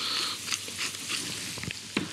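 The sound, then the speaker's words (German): Ground pepper roasts in melted butter in a hot pan, giving a soft, steady frying hiss broken by a few small pops and crackles. The sound is fairly quiet, with no talk. “Pfeffer gebe ich jetzt schon hier mit dazu, damit er durch die Hitze noch ein bisschen mitrösten kann.”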